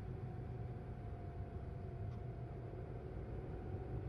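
Faint, steady low engine and road rumble of a moving car, heard from inside its trunk, with no talking.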